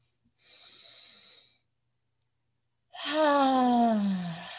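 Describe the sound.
Deep breathing during a guided settling-in moment at a worship service: a soft, airy inhale, a silent pause, then a louder voiced sigh on the exhale whose pitch falls as it fades.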